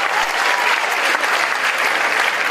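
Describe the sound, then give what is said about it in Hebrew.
Audience applause, a dense, even patter of many hands clapping at steady loudness through the whole stretch, with no voices standing out. “איפה כפיים”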